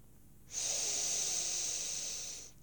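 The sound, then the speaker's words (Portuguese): A deep breath in during a breathing exercise: an airy hiss of about two seconds starts abruptly, holds steady, then tapers off, heard alone. “portanto, vamos inspirar.”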